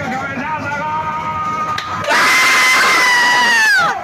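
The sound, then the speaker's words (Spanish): A bus driver in Córdoba cheers the third goal, a loud, sustained shouting cry that bursts out about halfway through over earlier tonal vocalizing and holds steady before cutting off near the end. “Mirá este festejo, perdón. A ver si lo podemos poner con de principio con audio. Es un colectivero en Córdoba escuchando el tercer gol.”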